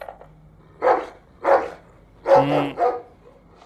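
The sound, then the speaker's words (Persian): A dog's barking played in reverse: four rounded, swelling bark-like bursts, the last two close together, each with an unnatural drawn-out shape. “این صدای یه سگه که برعکس پخش شده.”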